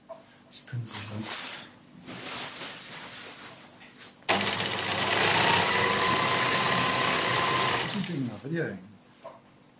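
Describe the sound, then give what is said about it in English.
A sewing machine stitches a large piece of green fabric into a green-screen backdrop. Its motor starts abruptly and runs in a steady, loud whir for several seconds, with people talking before and after it. “This is our sewing. He's sewing a green screen. It's a big piece of green material that he's going to use as a backdrop”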